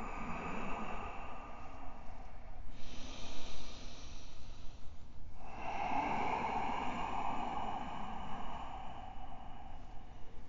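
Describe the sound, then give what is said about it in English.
Deep breathing in and out during a yoga session: slow, airy breaths with a soft hiss, a few long inhales and exhales separated by brief pauses, with no talking. “Full, complete breath in. Feel your back rise up, ribs spread apart. Exhale, sink down closer to your mat.”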